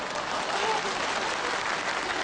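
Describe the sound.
Audience applause fills a comedy stage performance, a dense, even wash of many hands clapping at steady moderate loudness throughout, with a faint murmur of voices beneath.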